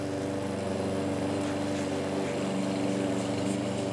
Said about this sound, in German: Jetzt kann Felix den Rasen mähen.